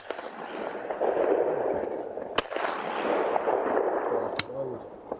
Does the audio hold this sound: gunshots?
yes